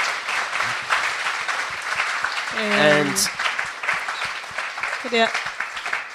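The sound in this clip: A church audience applauding after a testimony: steady, dense clapping throughout, with voices speaking over it.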